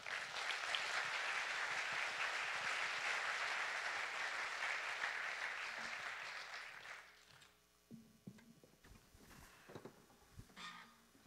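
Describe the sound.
Audience applause welcoming two speakers before a morning message: sustained, dense clapping for about seven seconds that then dies away into near quiet with a few faint scattered sounds.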